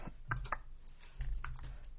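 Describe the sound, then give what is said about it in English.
Typing on a computer keyboard while entering a search on YouTube: a quiet run of light, irregular key clicks with faint background hiss. “YouTube. And type in Sting.”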